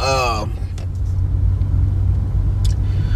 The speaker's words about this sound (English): But yeah, here I am, traffic and all.